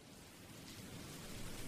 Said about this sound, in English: All it's been doing is raining.